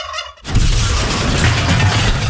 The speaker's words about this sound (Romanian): Treci pe curcan.